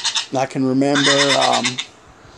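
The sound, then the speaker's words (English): A phone text-message alert that imitates a goat: a single loud, nasal, wavering bleat lasting about one and a half seconds, heard alone. “If you heard a goat in the background, that was my text thing going off.”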